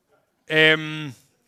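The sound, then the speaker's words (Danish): A sheep bleats once in a played video, a single harmonic call lasting under a second at a steady low pitch, with nothing else around it. “Det der, det er jo et får. Sådan er får.”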